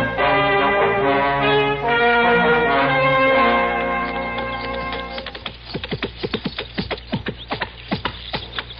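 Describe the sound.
Horse hooves arrive as a radio drama sound effect: many sharp, regular clip-clop knocks fill the second half, after sustained tonal music-like sound.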